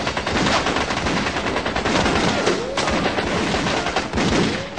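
Guns firing blank rounds in rapid automatic bursts make a dense, loud, continuous rattle with no real pauses, the shots overlapping throughout.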